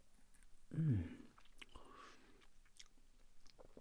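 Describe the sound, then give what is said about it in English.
Soft chewing of an artisan flapjack with no chocolate or yoghurt coating: quiet, moist munching with a few faint clicks, plus a short low murmured hum near the start, all very faint. “it was the artisan flapjack minus any chocolate or yoghurty coating. Let's have a little taste of that.”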